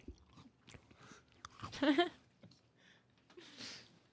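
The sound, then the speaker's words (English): Someone takes a bite of a food with fruity chunks and chews. A quiet, crisp crunch stands out briefly amid softer, faint chewing sounds, with some voices around it. “I'm going to need a second bite for that. ASMR.”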